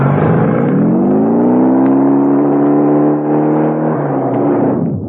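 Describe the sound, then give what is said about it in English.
A motorbike engine revving as the rider races away, a loud, steady roar that climbs in pitch at first, holds high, then drops off at the very end. “I grabbed the messenger's bike and raced towards headquarters.”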